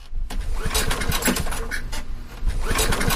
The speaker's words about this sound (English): You're down in the basement holding a flashlight in your teeth trying to start a portable generator that has not run since 2022. It doesn't start.